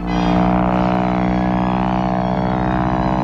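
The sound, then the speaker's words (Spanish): A repaired airplane's engine drones steadily on a test flight. It gives a loud, even, buzzing hum with a low pitch that holds without a break. “Probando un avión que se había roto y que Mike había pegado con un poco de...”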